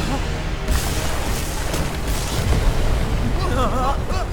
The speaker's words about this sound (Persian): ساختمونی که داخلشی داره منفجر میشه.